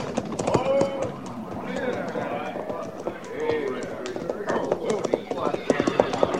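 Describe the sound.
A rider arrives on horseback, with rapid, uneven hoofbeats that keep up a quick galloping rhythm throughout. The hooves form a busy, clattering pattern of many strikes.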